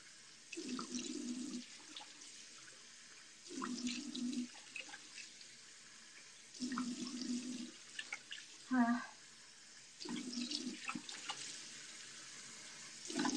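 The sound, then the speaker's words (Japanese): Running water splashes as a person washes their face, in several separate bursts of tap water and splashing with quiet pauses between them. “150人顔洗ってんの聞いてんのマジで面白すぎだろ。”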